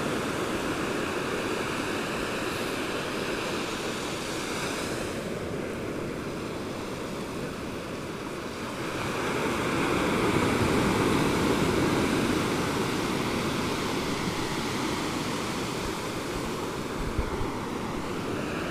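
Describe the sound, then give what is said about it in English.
Ocean surf washes in a continuous broad roar, swelling slightly midway, with no voices. “The pauses that you hear, where there is nothing but surf, are those moments when people are walking past.”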